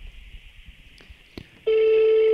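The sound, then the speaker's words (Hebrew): Telephone ringback on an outgoing call: a couple of faint clicks, then a loud steady ringing tone starts and holds unbroken to the end. “הוא יענה לך? מתקשר.”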